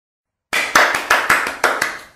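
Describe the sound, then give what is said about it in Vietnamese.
Hands clapping alone in a quick run of several sharp, crisp claps, each one decaying briefly before the next. “Lâm Tử Y vỗ tay.”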